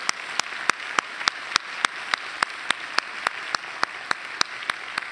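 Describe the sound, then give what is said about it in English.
Applause for a man honoured at a community event, heard as many sharp, evenly spaced claps in a steady rhythm that keep a constant loudness throughout. “Let's give Mac a hand for his hard work.”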